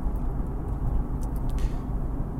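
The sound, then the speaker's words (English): Steady low rumble inside a moving car, a dense, even drone that holds at a constant level throughout with no voices. “they will pick up a lot of the bass from the car. I'm in the car right now.”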